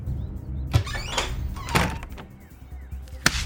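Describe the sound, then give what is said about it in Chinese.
A door eased open just a crack in a Snow White audio story, heard as a few brief thuds and rattling knocks spread across the moment, with quieter shuffling between them. “我把门打开一点点，请您把梳子从门缝递进来吧。”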